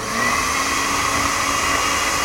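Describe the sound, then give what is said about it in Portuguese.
A food processor motor runs on small batches of grated ingredients, giving a loud, steady whirring drone that holds even throughout with no talking. “Eu vou passar no processador. Vamos lá então, de pouquinho, não enche o processador. Põe um pouco, processa e eu vou começar com o meu primeiro pouco aqui, ó. Vamos ligar?”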